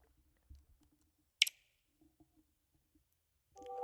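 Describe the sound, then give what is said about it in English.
A sharp click from a Nintendo Wii console stands out among a few faint ticks, and a brief tonal sound follows near the end. “Oh, it's Wii! It's the Wii! I was like, I know that click. I know that click. My childhood stems from that noise. Yes. Like, it was so that good. It was that ripple sound click.”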